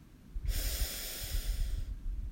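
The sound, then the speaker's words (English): A deep breath drawn in and let out during a guided relaxation exercise: one long, loud, airy rush of breath lasting over a second, heard alone with no talking. “Take a deep breath in”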